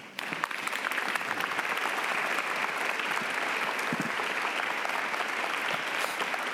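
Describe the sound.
An audience applauds to welcome a speaker to the stage, dense and steady clapping that holds at an even level from start to finish.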